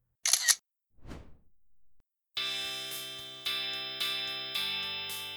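A camera shutter clicks as a selfie is taken: one short, sharp click, then a brief sweeping whoosh. A few sustained musical chords follow, each starting abruptly and slowly fading.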